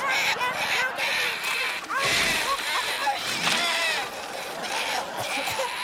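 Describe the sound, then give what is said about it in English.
A cartoonishly large vomiting splash of greenish goo as a cartoon mother turkey regurgitates cake, a loud, sloshing, wet gush that swells in a couple of surges over a busy, continuous bed of sound. “what you're hearing there is Mother Turkey full on baby birding the turkey by eating the cake and then vomiting, regurgitating in a cartoonishly large deluge of this greenish goo”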